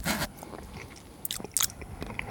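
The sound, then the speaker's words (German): Biting into a chocolate praline with a green filling, a few sharp crisp crunches separated by quieter moments of soft chewing. “Pralinen-Verkostungspodcast, Folge 130. In meiner Praline ist was Grünes drin und sie schmeckt”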